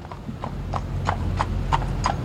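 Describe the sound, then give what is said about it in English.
Horse hooves clip-clopping as the horse pulls a carriage through a park: about seven evenly spaced, crisp hoof strikes in a steady walking rhythm over a low rumbling background. “You folks care for a nice carriage ride today. Lovely ride through the park.”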